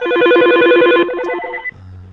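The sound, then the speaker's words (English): An elevator phone rings with a loud, warbling electronic tone for about a second. A steadier tone and a low buzz follow. “Goddamn elevator's ringing off the hook in here.”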